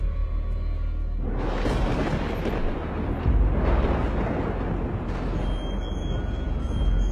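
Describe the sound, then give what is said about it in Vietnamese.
Thunder rumbling in a deep, booming roar that breaks in abruptly after about a second of quieter background, surges again near the midpoint and keeps rolling broadly to the end. “Ngoài trời nổi lên tiếng sấm đùng đoàng vang vọng cả bốn phương.”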